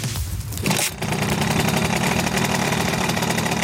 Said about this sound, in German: Das ist der typische Simson-Sound, meine Damen und Herren.